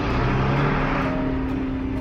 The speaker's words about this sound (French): Les camions de l'équipe de nuit émergent des profondeurs par un trou de 5 mètres de haut sur 5 de large. Cette bouche béante est l'unique accès à la mine.